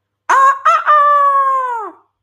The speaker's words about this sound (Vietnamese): Tiếng gà trống này bắt chước không sai, cao mãnh liệt, dẫn động gà trống nhỏ bốn phía tranh nhau mình gáy.